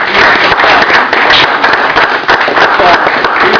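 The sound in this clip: Applause for young people at a community gathering with police, a steady wash of many hands clapping at constant loudness, with some voices mixed in.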